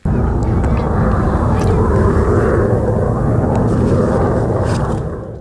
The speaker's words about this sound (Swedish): Så där lät det när de första nya stridsflygplanen av typ F-35A anlände till Finland idag.